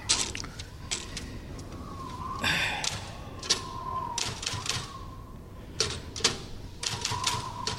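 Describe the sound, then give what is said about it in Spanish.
A typewriter clatters as someone types, with irregular runs of sharp key clacks and a few heavier thumps, while a faint wavering tone hums underneath. “Se sienta junto a la máquina, medita brevemente y comienza a escribir.”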